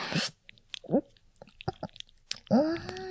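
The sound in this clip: Someone chews a mouthful of food with soft, wet, squishy bites in an uneven rhythm. Brief voiced murmurs occur between the bites.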